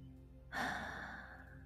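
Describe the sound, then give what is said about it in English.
A deep breath in during a guided relaxation exercise: one long, airy, hushed inhale that starts abruptly and holds steady for about a second before easing off. No talk accompanies it. “And let's inhale”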